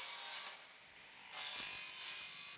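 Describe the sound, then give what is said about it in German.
A circular saw makes an angled cut through a large aluminium goal crossbar in a goal-making workshop. Two short, hissing bursts of cutting carry a faint high whine, with a quieter pause between them. “Die wird hier festgehalten und dann wird die mit so einer Kreissäge schräg abgeschnitten.”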